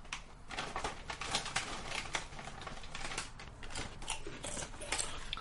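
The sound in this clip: Crunching of a spicy corn chip being chewed: many quick, dry, crackling bites in an uneven rhythm, fairly faint and heard without any talking.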